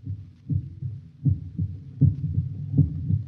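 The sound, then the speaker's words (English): A human heart beats in a steady, low, thudding double rhythm, about four lub-dub pulses, heard loud and alone with no voices. “That sound is the first and last sound in your memory. It is the pulsating of the human heart.”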